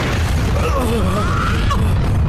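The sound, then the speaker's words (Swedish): A stadium tower collapses in a radio drama scene as the ground shakes, a deep, unbroken rumbling roar with wavering groaning tones rising and falling above it. “Gode Moses, det är stadiontornet! Nu kommer det ner!”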